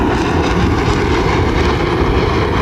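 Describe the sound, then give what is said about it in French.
Rafale fighter jets fly overhead near Laval, making a loud, steady roar of rumble and hiss that fills the whole clip with no voices. “Et voilà les rafales qui arrivent environ 5 minutes plus tard à notre droite, côté Laval, avec leur nez pointu. Attention aux oreilles.”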